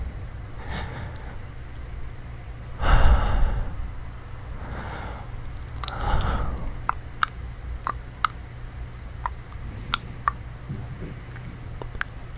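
Soft breathing close to the microphone in an ear-licking ASMR setting: a few slow breaths with two stronger exhales near the middle, joined by many small sharp clicks, with no talking.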